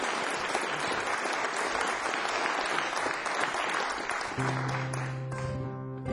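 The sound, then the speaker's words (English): Audience applause at a live concert: dense, even clapping that holds steady for about four seconds, then thins as a sustained low musical tone enters beneath it. “would you please give a hand to our sound man, Peter, working so hard. Thank you so much.”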